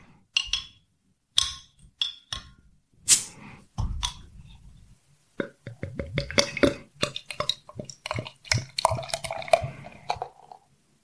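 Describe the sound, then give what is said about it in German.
A bottle of English honey beer from London, brewed with water, barley malt, honey, hops and yeast at 5 percent, is opened: glassy clinks and a sharp fizzing burst, followed by a long stretch of busy liquid trickling and clinking. “Drin ist Wasser, Gerstenmalz, Honig, Hopfen und Hefe. Und das Ganze hat 5 Volumenprozent. Ja, dann mache ich die Flasche mal auf.”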